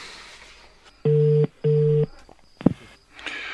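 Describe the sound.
Telephone ringing tone as a call is placed: two steady mid-pitched bursts in close succession, followed by a sharp click, with no talk.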